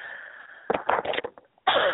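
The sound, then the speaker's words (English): A strong coughing fit: several harsh coughs come in a rapid cluster, then after a short pause another loud burst follows. No one talks. “Sorry. When the cough comes, it comes. It's strong.”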